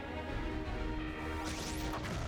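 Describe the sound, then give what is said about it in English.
Grenade explosions tear through a city under attack: dense, steady crashing and rumbling blasts with a brief whooshing sweep partway through, loud throughout with no clear gaps between hits. “Uh-oh, see, I told you they were grenades!”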